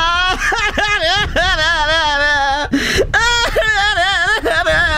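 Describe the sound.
Loud crying from a single voice: drawn-out, quavering wails and sobs that waver up and down in pitch, with a short breathy catch near the middle before the wailing resumes.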